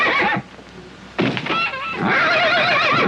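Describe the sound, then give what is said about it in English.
A loose horse in front of a house whinnies in loud, wavering harmonic bursts, a short cry at the start and then a longer trembling neigh that runs to the end, with no voices. “I also am kind of wondering, like, why is there just this loose horse randomly”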